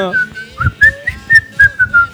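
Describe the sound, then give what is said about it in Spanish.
Whistled tune imitating a basketball exhibition team's theme music: a short, bouncy melody of clear, fairly loud whistled notes in a lively rhythm, stepping up and down in pitch. “Había tipo una musiquita medio silbido. Silbido.”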